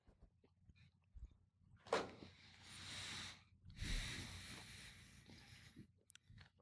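Close-miked chewing and wet mouth noises from someone eating food with cereal in it, heard as a few loud smacking bursts separated by quiet gaps.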